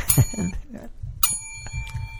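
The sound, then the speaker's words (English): Bicycle bell rung twice, each a bright, shimmering ring that lingers briefly, with low rumbling noise between and beneath the rings. “High five. I love the bell.”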